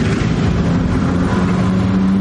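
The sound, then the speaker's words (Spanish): Steady low engine hum of a car being driven along a street, a constant drone that holds level throughout, with no gear changes or other sounds standing out. “En una calle, Hong conduce.”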